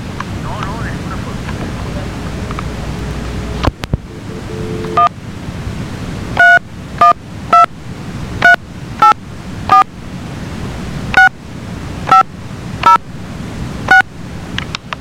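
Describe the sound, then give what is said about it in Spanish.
Touch-tone dialing on a telephone while a call is being connected to another party: a quick series of short, clear dual-tone beeps, one per key press, follows a stretch of steady line noise and a couple of clicks. “me voy a poner la comunicación con José Antonio, ¿oíste?”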